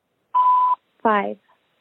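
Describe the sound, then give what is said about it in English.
A telephone keypad tone sounds once as 5 is dialed to accept a prepaid call: a steady, clean beep lasting under half a second, then a short spoken word after a brief pause. “To accept this call, stay or dial 5 now.”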